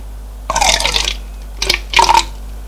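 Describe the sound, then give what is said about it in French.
Liquid is emptied out of a medicine bottle in a few gurgling gushes: one longer pour, then two short splashy spurts, alone without talk. “Il vide le flacon.”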